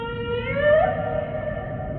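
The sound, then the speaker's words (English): A humpback whale call: a moaning, tonal cry rich in harmonics glides upward midway and then holds steady, over a low, murky rumble. “That's the sound of the humpback whale.”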